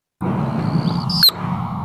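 Anna's hummingbird dive display: a faint, thin, high wing trill followed by a brief, sharp, louder high chirp near the end, over a steady low rushing background.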